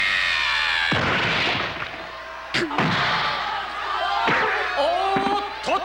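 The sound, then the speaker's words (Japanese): A sudden punch landing in a tournament fight, heard as a few sharp, heavy impact thuds that break through whooshing, swirling effects and whistling tones. “ギラン選手不意の一撃、これは効きました。”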